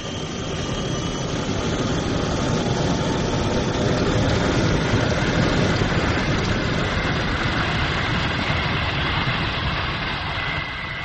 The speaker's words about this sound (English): FastJet 101, clear for takeoff. FastJet 101, rolling.